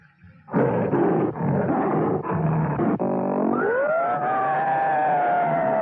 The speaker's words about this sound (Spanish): Su rugido es la voz de la muerte.